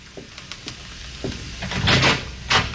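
A room door is opened: a few small, dry clicks of a latch or handle, then a louder rattling scrape as the door swings open.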